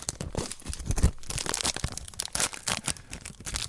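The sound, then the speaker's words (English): A card package being torn open, its wrapper crinkling and ripping in a dense, continuous run of sharp tears, crunches and rustles at an even loudness, with no talk. “I love that package opening sound.”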